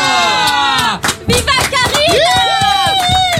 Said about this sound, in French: celle que l'on appelle la reine, the queen, celle que les gens accueillent en criant « Viva Karina » quand elle ouvre son micro.